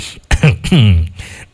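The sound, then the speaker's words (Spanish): A person clears their throat and coughs: a sharp rough burst, then two short voiced, gravelly throat sounds, fairly loud and alone, with no speech. “No sé por qué me da la tosedera.”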